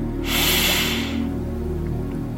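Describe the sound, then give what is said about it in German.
A deep inhale, likely through the nose, during a breathing exercise: a strong, rushing hiss lasting about a second, then fading into a quiet steady hum with no talk. “Tief einatmen.”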